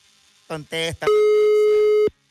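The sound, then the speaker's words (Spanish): A telephone tone as a call is placed from a morning radio studio: two short buzzy bursts, then a single loud, steady tone holding for about a second before cutting off abruptly. “Estamos marcándole, ya.”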